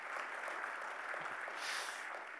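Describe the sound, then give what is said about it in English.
An audience claps with a dense, even patter that stays fairly faint and steady throughout, rising slightly near the end. “making us clap”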